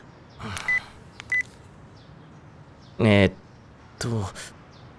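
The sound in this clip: Two short electronic beeps from a phone signal an incoming email, each a brief high tone, followed by a few bursts of talking.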